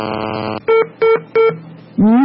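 Electronic phone-line tones as a call disconnects on a radio phone-in: a steady buzzy tone, then three short identical beeps, then a longer tone that rises briefly at its start, all fairly loud with no talking.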